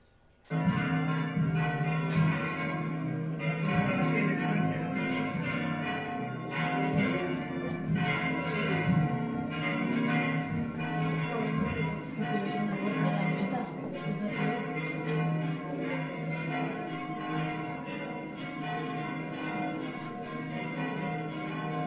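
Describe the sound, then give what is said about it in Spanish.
Church bells ring during the town festival in Muel, a loud, continuous, dense peal of many overlapping strikes that holds steady throughout. “estas campanas que reconoceréis enseguidísimo”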